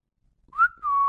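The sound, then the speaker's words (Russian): A man whistles alone: a short note that bends up and back down, then a clear steady tone held at the same pitch, fairly loud. “Свистнул опять рыцарь Кинфанс.”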